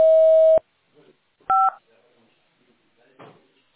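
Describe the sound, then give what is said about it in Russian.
A voicemail recording beep sounds: a steady clear tone of about half a second, then a short two-tone beep, with faint small noises in the gaps. “После сигнала, пожалуйста, запишите свое сообщение. Для окончания записи нажмите любую клавишу или перестаньте говорить.”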